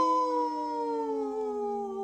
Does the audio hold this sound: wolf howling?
yes